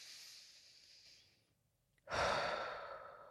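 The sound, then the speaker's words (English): A deep mindful breath: a soft airy inhale through the nose fades into a brief pause, then a louder, rushing sigh of air is pushed out through the mouth and slowly tapers off. “I like to breathe in through the nose, out through the mouth.”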